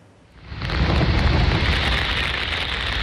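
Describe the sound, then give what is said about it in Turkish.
Heavy rain shower pouring down on Istanbul: after a quiet start the downpour swells in within half a second to a dense, loud, steady hiss that keeps going to the end, with no talk. “İstanbul'da etkili olan yağmur gündelik hayatı olumsuz şekilde etkiledi.”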